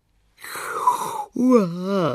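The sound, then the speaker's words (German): A voice performs the sleepy yawn of a long-eared bat: a breathy, drawn-out stretch, a brief catch, then a voiced, gliding, moan-like tail. “Gähnt die Fledermaus noch ganz verschlafen.”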